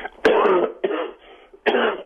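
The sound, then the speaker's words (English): A person gives a little cough: three harsh, throaty bursts with voiced tails, evenly spaced over about two seconds. The bursts are loud and close together. “Got a little cough.”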